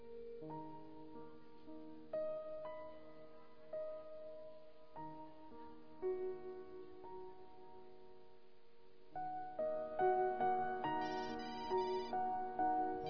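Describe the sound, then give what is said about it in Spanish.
A mobile phone rings insistently with a melodic ringtone, a repeating sequence of bright musical notes that plays continuously and grows louder and fuller in its last few seconds. “Se sorprendió cuando su celular sonó insistentemente.”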